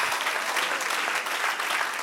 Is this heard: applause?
yes